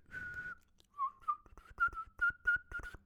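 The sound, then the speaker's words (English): A person whistles a bright, pure tone: one long held note, a short pause, a note that slides slightly upward, then a quick string of several short clipped notes at a similar pitch. “Should have done a more powerful whistle there.”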